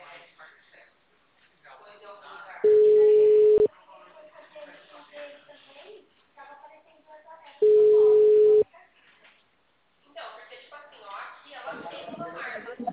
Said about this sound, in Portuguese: Chamando.